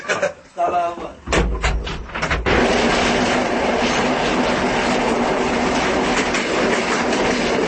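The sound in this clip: A train runs on rails: a few clanks and knocks with brief voices at the start give way to a loud, steady rumbling roar that carries on to the end.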